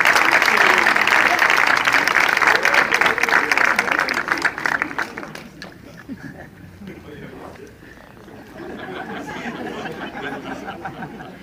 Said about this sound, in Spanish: Un aplauso, por favor.